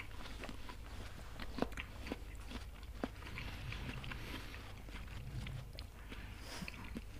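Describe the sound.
Crisp bites and wet chewing of a honey-filled apple whose nectar reaches right to the skin. A few sharp crunches stand out over steady, moist mastication that runs throughout.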